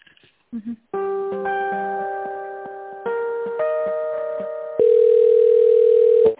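Electronic tones sound on a telephone line while a call is being transferred. A few long, sustained tones shift in pitch in steps and end on a louder held tone.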